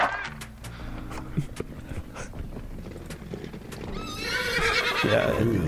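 A horse trots with rapid clip-clop hoofbeats, then lets out a loud, high, wavering neigh near the end, the whinny rising over the steady patter of hooves.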